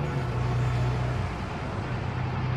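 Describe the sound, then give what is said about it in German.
A car drives fast through city streets, a steady, loud engine and road roar with a low droning hum underneath and no talk. “fahren sie vorläufig kreuz und quer durch die Stadt. Wir müssen unsere Verfolger abhängen. Schneller!”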